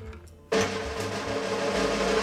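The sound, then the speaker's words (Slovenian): A drumroll from the studio crew builds suspense before a winner is announced on a show: after a brief quiet moment it starts abruptly and holds as a loud, steady, continuous roll to the end. “Torej, sedaj je čas, da izvemo, katero je zmagovalno besedilo in pa kdo se je pod njega podpisal, pa kar prosimo režijo za en drumroll.”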